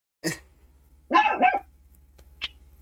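A dog barks a few times in sharp bursts, with a longer double bark in the middle and a short yip at the end. A faint, low steady hum runs underneath, and there is no talk.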